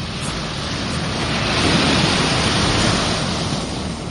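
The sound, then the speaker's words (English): Sea waves of an incoming tide rush in a steady, continuous wash that swells slightly midway, with wind noise mixed in. “The tide's coming in.”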